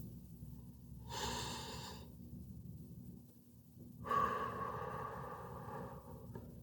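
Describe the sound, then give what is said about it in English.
A slow, deep breath taken during a calm guided journaling session: a soft inhale, then after a pause a longer, airy exhale, quiet over a faint steady hum. “Let's take another deep breath.”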